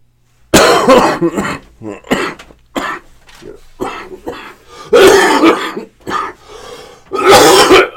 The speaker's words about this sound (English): listen to a podcast where a guy coughs up a lung. Bronchitis, pneumonia, something, right?